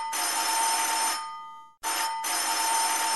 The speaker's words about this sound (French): il me vient à l'esprit que j'ai oublié les clés et je me vois contrainte de sonner, réveillant toute la maisonnée à coups de sonneries stridentes.